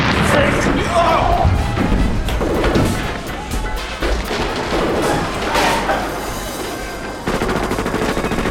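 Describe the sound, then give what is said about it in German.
An explosion tears a huge hole in a freshly bricked section of wall, giving a loud, sustained burst of crashing, rumbling and smashing noise with a few sharp hits, and voices heard in the mix. “Die Explosion riss ein riesiges Loch in das frisch gemauerte Stück Wand.”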